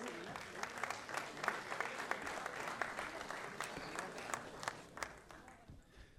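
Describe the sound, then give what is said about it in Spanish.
Audience applause for a visiting musical duo at a live event: a steady patter of many hands, fairly faint throughout, thinning out and fading near the end. “Fuerte el aplauso para Gustavo Páez y Julián Humarán.”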